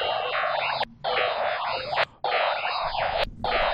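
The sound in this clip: A webcam image with a face in front of the camera is converted into sound as a dense, buzzing, static-like drone. It plays in four sustained blocks broken by three short gaps.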